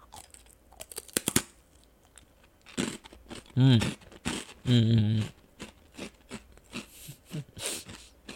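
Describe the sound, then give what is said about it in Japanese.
Crunching bites of thick zarame senbei, sugar-coated Japanese rice crackers: a few loud, crisp cracks and crunching chews in irregular bursts, with murmured voiced sounds between the bites. “いただきます。ザラメせんべいね。”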